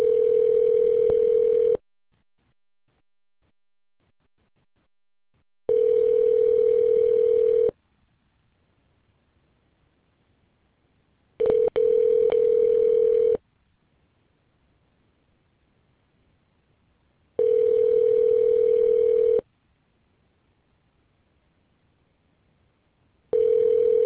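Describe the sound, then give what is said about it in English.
A telephone ringback tone plays while a call tries to connect before it is forwarded to voicemail. It is a steady, mid-pitched tone in four two-second bursts separated by longer silences, and a fifth burst begins at the end. “I tried to connect you.”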